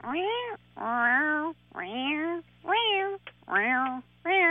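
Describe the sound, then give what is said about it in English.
A voice mimics the noise a manual-transmission car makes when accelerating in the cold, mostly in first, second and third gear. It produces a series of separate tonal, whining calls at a fairly regular interval, each with a slightly different pitch contour. “When I'm accelerating, mostly in first, second, and third gear, it makes this noise. And it comes at a regular interval, but the noise is not the same. It goes...”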